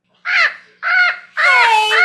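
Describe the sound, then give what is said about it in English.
A pet parrot squawks three times, harsh and raspy bursts separated by short pauses, the third call longer and more drawn out than the first two. “That's my parrot!”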